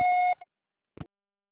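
An answering machine beeps before recording a message: one sustained mid-pitched electronic tone, a tiny blip after it, then a soft click in the silence.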